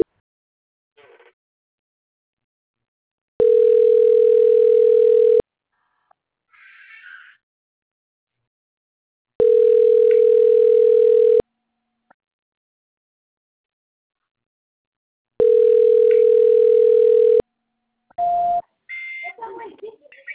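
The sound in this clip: A telephone line plays a tone while a call is transferred: three long, steady, mid-pitched beeps of about two seconds each, evenly spaced with silent gaps, then brief voices at the end.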